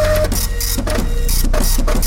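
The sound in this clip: A fax machine whirs and chatters loudly, its mechanical drone broken by repeated hissing bursts in a steady rhythm.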